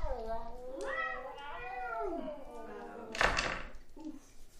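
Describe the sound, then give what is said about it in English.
A person's voice imitates a cat meowing, with a few drawn-out, wavering meows that rise and fall in pitch, followed by a brief noisy burst. “never heard such kitty language. Terrible kitty language.”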